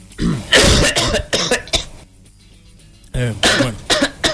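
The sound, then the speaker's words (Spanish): A person coughs outside in a run of harsh, loud bursts, falls quiet for about a second, then breaks into another string of coughs. No speech is heard. “Voy a arreglar a alguien que esté tosiendo afuera.”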